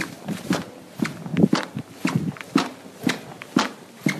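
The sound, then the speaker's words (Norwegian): Footsteps in badly squeaking shoes at an ordinary walking pace: many steady, evenly spaced steps, each with a short creaky squeal over a soft thud, heard alone without talk. “Knirkeskoen har nå blitt så ille at du vil ikke tro det. Jeg har lyd her av hvordan jeg knirker når jeg går.”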